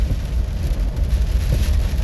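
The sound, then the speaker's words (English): Heavy rain while driving in traffic in the dark: a steady, dense hiss of pouring rain over a low, continuous rumble of the car on the road, with no talking. “I'm trying to focus and drive, and it's pouring rain. There's tons of traffic.”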